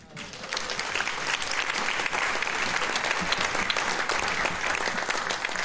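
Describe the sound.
Applause from a concert audience welcoming a speaker from the Seattle Folklore Society: dense, steady clapping that swells in over the first half second, then holds loud and even for several seconds.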